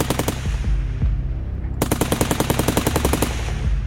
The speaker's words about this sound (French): L'un des 2 individus se retourne rapidement avec un pistolet mitrailleur et commence à arroser les 2 policiers.